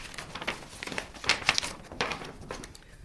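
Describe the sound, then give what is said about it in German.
Paper crinkling and rustling as an 1870 Alpine club map of the Grossglockner area is unfolded, a series of soft crackles and sharper crinkles with a few louder bursts, fairly faint and with no talk. “Die Kunsthistorikerin faltet die Karte auf.”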